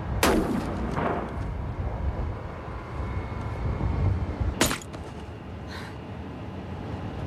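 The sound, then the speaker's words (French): Gunshots in a film scene set in Morocco: a few sharp, loud cracks, the strongest near the start and again midway, each bursting out over a steady low rumble, with no talk. “Dans cette scène, nous sommes au Maroc et un coup de feu éclate.”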